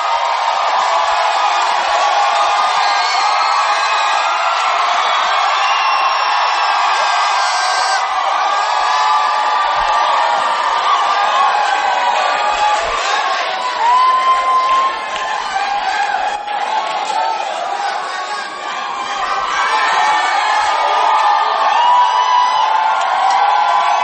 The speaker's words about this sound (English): Please help me welcome the BDs as they bring us a song for tonight. Give it up for the BDs.